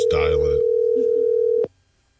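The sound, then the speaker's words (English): A telephone dial tone plays as a call is dialed: a steady, loud, continuous single-pitched tone that a voice speaks over at the start. It lasts about a second and a half, then cuts off abruptly with a click, leaving near silence. “Is there something wrong with the phone system, maybe? Oh, yeah, it's the phone's problem. All right, I got one. Just dial it.”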